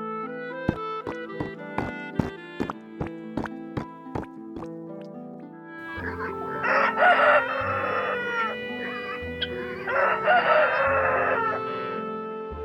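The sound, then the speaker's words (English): Farmyard sounds of a rooster crowing and chickens clucking in two loud bursts of calls. Before them comes a run of plucked musical notes. “The ugly duckling goes to a farm.”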